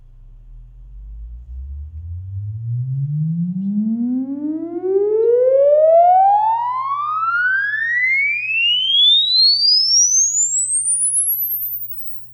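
A sine-sweep test tone from a sound system used to measure impulse response glides smoothly from a deep low pitch to a piercing high one over about twelve seconds. A steady low hum sits beneath it until the sweep cuts off abruptly.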